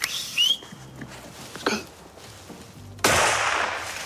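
A single loud, sharp gunshot on a deer hunt in a royal forest as a buck appears, bursting out near the end after a quiet stretch and tailing off slowly.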